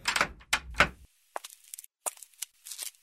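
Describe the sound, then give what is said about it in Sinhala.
A hotel room door opening suddenly: a few heavy thuds at the start, then a run of lighter clicks and clacks from the door and latch. “එක පාරටම මං හිටිය කාමරේ දොර ඇරුණා.”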